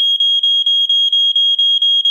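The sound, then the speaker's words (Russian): A smoke detector sounds its alarm: a shrill, piercing, steady high tone broken by rapid, evenly spaced short gaps, loud and unaccompanied. “И там быстрее всего дым, дымовой датчик среагирует и подает сигнал.”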